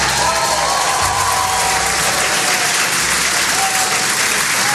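Loud, dense applause from a crowd welcoming astronauts Butch Wilmore and Sunita Williams back to Earth, a steady roar of many clapping hands that keeps going throughout.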